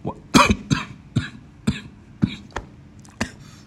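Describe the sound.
Harsh, repeated coughing from someone who has just choked on a drink of water: a rapid series of loud, raspy coughs with brief gaps between them and no talking.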